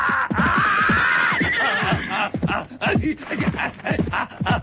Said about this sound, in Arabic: تحرك تحرك، قلت لك تحرك، هيا بنا، امضي بسرعة. هيا أيها الحصان، هيا. ما بك؟